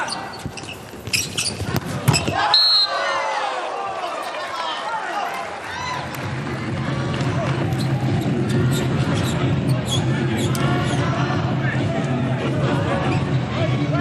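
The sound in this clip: A volleyball bounced on the court before a serve during a China national team match: a few sharp thuds early on, set against steady crowd hubbub, with a commentator talking throughout.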